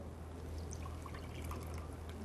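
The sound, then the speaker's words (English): Water is carefully poured out of a bowl, leaving settled starch at the bottom. A steady, continuous trickling pour runs unbroken from start to finish at a faint, even level, with no talk. “So what we're going to do is remove the water and then put the starch in our batter. So we're going to carefully pour the water out.”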